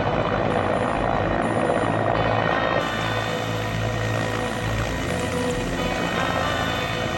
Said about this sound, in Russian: Над тайгой взлетает вертолет.